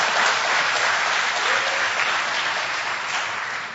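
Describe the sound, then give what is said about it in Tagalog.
A church audience applauds with dense, steady clapping that lasts nearly four seconds and eases off slightly at the end. “Pwede ba palakpakan natin ng Panginoon?”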